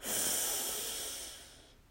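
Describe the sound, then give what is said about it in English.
A deep breath drawn in through the nose during a guided breathing exercise. It is a single long, airy hiss that starts strong and fades away over nearly two seconds, with no talking. “So breathe in through your nose as you extend your belly.”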